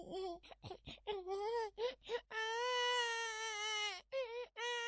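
A baby cries: a run of short, choppy sobs swells into one long, sustained wail, followed by a brief final cry.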